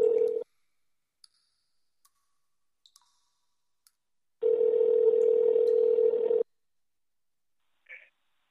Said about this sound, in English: Let me give her a call right here. Let's see if I can get her on the line.